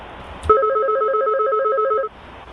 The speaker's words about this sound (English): Am I allowed to like answer my phone?